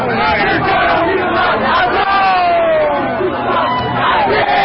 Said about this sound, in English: This is the sound of protesters outside Trump Tower in New York City last evening.